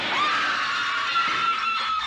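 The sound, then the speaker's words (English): A woman's terrible shriek, one long high-pitched cry that holds steady for about two seconds. “With a terrible shriek, she hurled herself at the window and fell through.”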